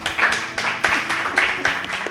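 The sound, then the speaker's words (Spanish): A small group claps for a man who has just won a prize. A few short bursts of hand claps come at a loose, uneven rhythm over about two seconds. “Un aplauso para el hombre.”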